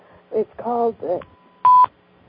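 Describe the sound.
A single short electronic telephone beep signalling an incoming caller on the line, a steady, piercing tone that follows a few moments of talk.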